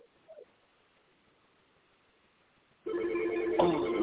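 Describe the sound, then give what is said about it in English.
A telephone rings loudly and continuously after a quiet stretch, the ring starting abruptly and sustained until the end. “Oh, hold on. I got to get the phone.”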